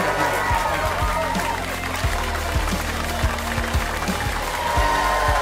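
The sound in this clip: Audience applause at a live comedy show, a steady, dense wash of clapping that holds at an even level throughout with no clear pauses.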